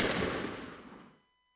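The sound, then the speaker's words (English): A single rifle shot fired during a bullet-catching stage trick: one sharp, loud blast at the onset that decays steadily into silence within about a second. “fire this marked bullet from this rifle using my face for a target. I will catch this bullet in my teeth. Ready? Aim! Fire!”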